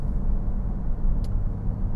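Car engine and exhaust from a car with an unusual aftermarket exhaust, a steady deep rumbling drone at an even level with one brief high click partway through.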